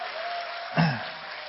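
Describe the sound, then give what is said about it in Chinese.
Applause from a standing church audience welcoming its senior pastor: a steady wash of dense clapping that runs throughout at moderate level, with one brief louder thump near the middle. “下面我们起立，一起用热烈掌声欢迎我们的主任牧师肖牧师。”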